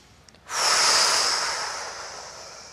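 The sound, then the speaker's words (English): A person takes a deep breath: a single long, breathy rush of air that starts abruptly and slowly fades away. “just stand up and take a breath in and out”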